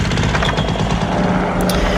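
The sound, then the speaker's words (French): A paramotor engine runs loud and continuous, a rough, buzzing propeller-engine drone that holds steady without pause. “Oh, bah, on va prendre le paramoteur. Le paramoteur.”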